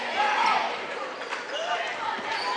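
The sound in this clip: A basketball is dribbled during a high school game between Holly Pond and Fairview, with a few firm, rhythmic bounces on the court beneath a commentator's running play-by-play and gym crowd noise.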